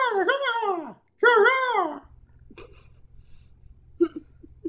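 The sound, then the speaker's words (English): A human voice imitating a griffin with two shrill, wavering screeches in quick succession, followed by a low steady hum and a few faint murmurs. “The griffin noises are the best.”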